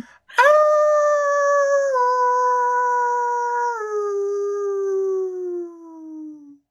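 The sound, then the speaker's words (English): A person imitates a wolf howl with the voice: one loud, sustained howl lasting about six seconds that steps down in pitch twice, then slides lower as it fades out. “if you're going to howl, you got to go all out.”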